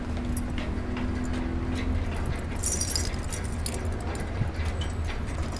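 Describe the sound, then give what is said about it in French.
Keys jangle as someone hunts for the right key to a blocked lock, giving a few scattered metallic jingles over steady background noise. “Est-ce que j'ai la bonne clé au moins, là ?”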